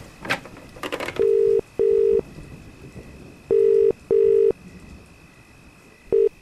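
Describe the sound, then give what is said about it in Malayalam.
A phone call is placed to a friend's house. A few handset clicks and rattles give way to a telephone line tone in short paired bursts: two pairs, then the start of a third, steady and mid-pitched. “അവളുടെ കൂട്ടുകാരി റീത്തേനെ ഒന്ന് വിളിക്കട്ടെ”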